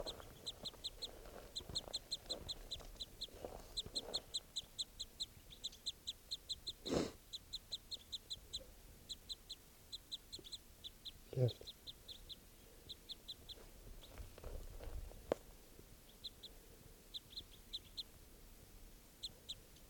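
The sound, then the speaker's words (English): Female crossbill calling beside a mist net, with other crossbills nearby: many short, high chip notes in quick rhythmic series throughout, with a few louder low thumps in between. “There's two birds still here by the net, and they just started calling loud. I think other crossbills are also around. Step. Recording one of the females here.”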